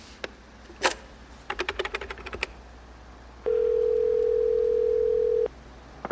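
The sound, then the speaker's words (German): A telephone dial tone sounds while a call is placed: a run of sharp clicks comes first, then one steady, loud tone holds for about two seconds, followed by a couple of faint clicks. “Kann ich jetzt bei meinem Arbeitgeber anrufen?”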